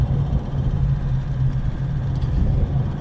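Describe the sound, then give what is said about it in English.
Low, steady engine rumble of a truck being driven at an early morning start, a continuous heavy droning hum with no talk. “I've just jumped in the truck and I'm heading to meet Ray Clark”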